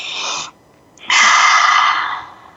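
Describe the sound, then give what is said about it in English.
A deep breath drawn in during guided breathing gives airy, hissing rushes of air: a short puff, a brief pause, then a longer, louder inhale that gradually tapers away. “So let's breathe that in.”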